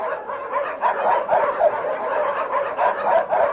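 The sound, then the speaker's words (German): Dozens of dogs barking and yelping at once in a very large animal shelter holding thousands of caged dogs, a dense, unbroken chorus with no single bark standing out, loud and steady throughout. “Man hört ihn schon aus der Ferne, den Sound von Moskaus größtem Tierheim.”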